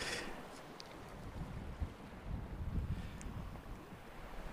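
Seaside ambience heard from a bench facing the sea: a steady, faint rush of wind buffets the microphone over a low, continuous rumble of surf.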